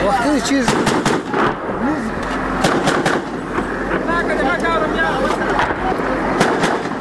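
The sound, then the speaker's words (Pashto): Gunfire exchanged between police and militants on a front line near a market: many sharp cracks and bursts, steady throughout, under a voice talking. “د جنگ لومړی کرښه کې د پولیسو او وسلوالو ترمنځ ډزې روانې دي”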